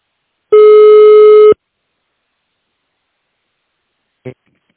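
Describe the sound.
A telephone line tone sounds while a call is transferred to a company's legal department. It is a single loud, steady beep lasting about a second, followed by silence and one faint click near the end.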